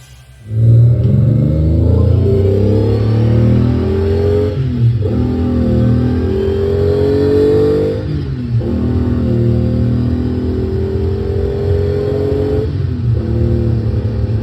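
Car engine revving hard under heavy acceleration, a loud continuous roar whose pitch climbs steadily, broken by three brief dips before rising again.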